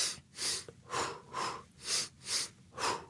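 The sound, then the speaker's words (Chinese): Deep breathing in a slow, steady rhythm: six even, airy breaths, each swelling and fading, with no talking. “但我深呼吸咧，頭先做深呼吸啊”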